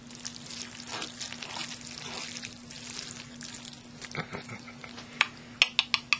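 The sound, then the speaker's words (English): Food being mixed in a dish with a utensil: a steady, scraping, wet stir, then a few sharp clinks as the utensil taps against the dish near the end. No voices. “I'm just mixing it up. This is the sound of me mixing up food.”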